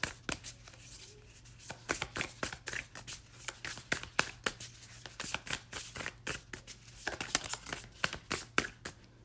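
Cards shuffled and pulled from a deck during a card reading make many quick papery slaps and riffles in irregular bursts, over a faint steady low hum.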